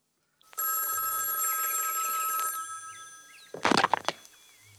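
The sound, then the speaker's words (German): An old telephone in a private apartment rings with one long, steady electric bell tone, and a brief clattering knock follows soon after. “Am 11. März klingelte bei Condon das Telefon.”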